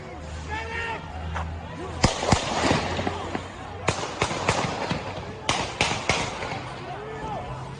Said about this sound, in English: Kyle's not shooting. That is a completely different gun being fired. Completely different gun.